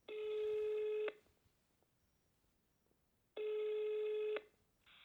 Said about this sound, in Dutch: En ik ga even bellen en vragen hoe het met haar gaat.